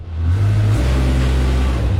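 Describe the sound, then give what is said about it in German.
A construction machine's low engine hum starts up again, a loud, steady droning rumble that carries through the whole two seconds. “Dann fährt langsam das Brummen von der Baumaschine wieder an.”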